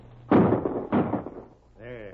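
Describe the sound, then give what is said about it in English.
Rifle gunshots in a Western radio drama: two heavy, booming shots about half a second apart, each with a rough, decaying tail, followed by a quieter tonal sound. “We sure knocked him out of his saddle anyhow. Pretty good shooting, I calls it, for that distance.”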